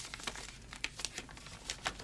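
A letter envelope is carefully opened, giving soft, continuous paper crinkling and rustling with many small crackles and light tearing bursts.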